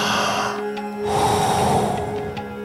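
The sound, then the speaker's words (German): Deep breathing in and out during a workout exercise set, drawn-out breaths with a steady low hum underneath. “Voll einatmen und dann wieder loslassen.”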